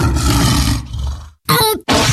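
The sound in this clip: A lion's roar used as a brand sound in a radio ad for a fuel company. It is loud and rough, heard alone in a few bursts split by brief silences, with deep growling tones in the later parts.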